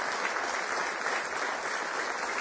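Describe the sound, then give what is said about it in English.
A church audience claps their hands in praise, producing a dense, steady wash of applause that holds at an even loudness throughout. “Give him one more hand clap of praise if you would.”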